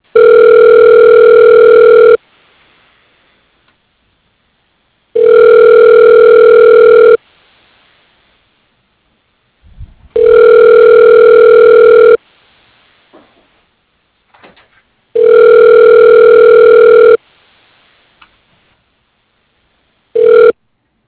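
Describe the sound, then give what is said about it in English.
A telephone ringing tone plays while a call connects. Four steady two-second tones are each followed by about three seconds of near silence, with soft clicks in the gaps, and a fifth tone begins at the end. “Okay, dialing.”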